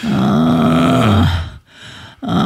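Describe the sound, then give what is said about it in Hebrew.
Groaning from someone lying in bed with a fever and aching body while stretching: a long, loud, voiced groan that slides down in pitch, breaks off into near silence, then a second groan begins. “לא, זה לא גניחות של הנאה, זה ברור שזה סבל.”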